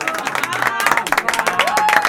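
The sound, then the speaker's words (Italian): An audience breaks into applause, quick, loud clapping with some cheering and a few voices mixed into the crowd noise. “facciamo noi gli applausi.”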